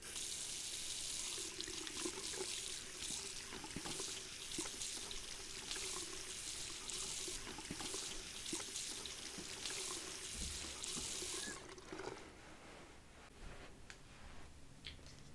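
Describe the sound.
Water runs from a sink tap while hair is rinsed during a haircut and hair wash, a steady full hiss that cuts off near the end and leaves a quieter tail.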